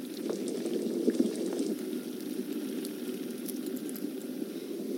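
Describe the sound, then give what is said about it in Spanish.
Fish broth with vegetables boiling in a pot over medium heat: a steady, dense bubbling and popping that runs evenly throughout, with no voices. “El caldo ha estado cocinándose a lumbre media ya por 10 minutos y las verduras están a media cocción.”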